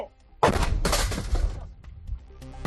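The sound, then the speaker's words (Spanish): A controlled detonation of a half-buried German aviation bomb from the Spanish Civil War, found in a village farmyard: a sudden loud blast, then a second surge and a rough, rumbling decay lasting a couple of seconds. “Atento porque te voy a mostrar cómo suena una bomba de la aviación alemana que participó en la Guerra Civil. Escucha.”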